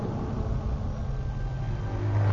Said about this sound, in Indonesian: Dan aku udah bisa melihat kendaraan. Kendaraan yang lalu lalang.